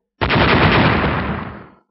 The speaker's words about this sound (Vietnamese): Một hồi những tiếng nổ vang động trời đất, vô số khối băng bắn tứ tung, mặt đất bị đánh thành một cái động lớn.